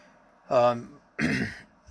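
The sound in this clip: Two rough throat-clearing coughs brought on by sawdust, each a short raspy burst separated by a brief pause, loud against an otherwise quiet background.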